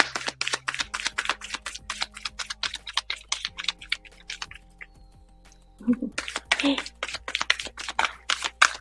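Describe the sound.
Quick, crisp clicks and papery flicks as oracle cards from an animal totem deck are handled and drawn, coming in rapid runs with a brief quieter gap midway and a low steady hum beneath.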